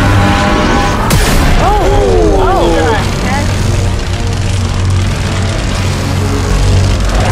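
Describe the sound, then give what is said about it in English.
Giant laser death beams fire in a laser maze built on a spaceship-style set, opening with a sharp blast that becomes a loud, sustained roar, while voices shout excitedly over the noise. “Boys, fire the death beams.”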